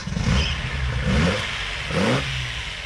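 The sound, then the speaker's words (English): A Datsun car engine revs over a steady running rumble, its pitch climbing sharply in two distinct surges before settling back, loud and without voices. “Yes, that's the sound of Ian's Datsun that he'll be taking all that distance starting in Wagga this weekend.”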